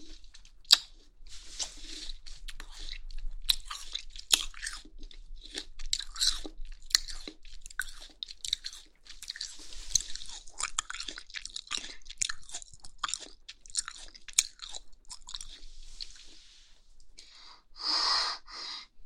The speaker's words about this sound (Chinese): 接下来水煮的，姐姐就一口气全部放在嘴里，要吃一大把，那样才满足，才过瘾。